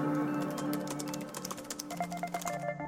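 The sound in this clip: Faint, rapid key clicks from typing on a computer keyboard for a Google search, heard over a quiet, steady tonal background.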